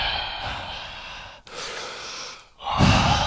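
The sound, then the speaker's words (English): Breath rushes close against a microphone in three long, noisy inhales and exhales separated by brief pauses, the last one the loudest. “now I can hear my breath on it”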